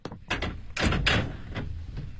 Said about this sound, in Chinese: 你别急别急别动啊，我把走廊的窗子打开一点。